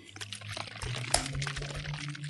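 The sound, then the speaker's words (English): A bottle of drink with sediment in it is shaken, and the liquid sloshes and gurgles in faint, splashy pulses, with one sharper knock about midway. “But this one, I can actually shake it. So, we're going to get a bit of ASMR right now.”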